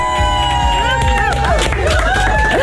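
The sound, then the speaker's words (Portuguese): The M80 radio station team crowds into the studio to sing happy birthday and cheer, many voices singing and shouting together in a loud, continuous, lively jumble. “É que aqui a equipa da M80 entrou toda aqui pelo estúdio para me cantar os parabéns.”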